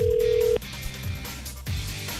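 Telephone ringback tone on an outgoing call: one loud, steady, mid-pitched tone that holds for about half a second and then cuts off abruptly into low background noise.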